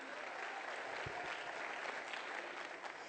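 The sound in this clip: Audience applause welcomes a new worship pastor and his wife at a church campus service: steady, dense clapping that stays level and fairly loud throughout, with no voices over it.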